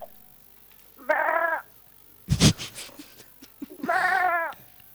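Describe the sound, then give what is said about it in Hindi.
A person imitates a goat bleating with two wavering, nasal bleats separated by a short burst of breathy noise. The bleats are clear and fairly loud. “इस बकरे के पीछे यकीनन कोई इंसान है, और इंसान जब जानवरों वाले काम करे ना।”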